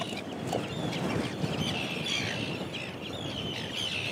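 An Arctic tern chick chirps while being weighed on a scale at a coastal breeding colony, with thin, high peeps repeated many times over steady background noise and no talk.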